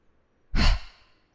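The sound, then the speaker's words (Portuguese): One deep breath taken during a guided yoga stretching exercise with shoulder release: a single airy rush lasting about half a second, swelling quickly then tapering off, heard alone against near silence. “De uma vez, solta seu ombro, inspira, mais uma vez, inspira”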